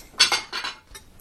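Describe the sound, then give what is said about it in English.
Soup and salad are served into bowls and onto plates, with a quick cluster of clinks and scrapes of utensils against dishware lasting about a second, crisp and fairly loud, with no talk. “All right, let's put this in some bowls. Yeah. Bowls and plates.”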